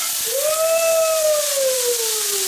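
Frozen food sizzles in a hot pan with sesame oil, giving a steady, bright hiss. A thin whistling tone rises briefly over the hiss, then slowly falls.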